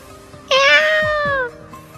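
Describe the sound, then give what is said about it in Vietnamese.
A black cat, grabbed by the scruff while struggling, lets out one loud, drawn-out meow lasting about a second, bright and harmonic, trailing off at the end. “Mèo đen bị Bạch Ngọc Đường bắt được, vùng vẫy mấy cái kêu lên.”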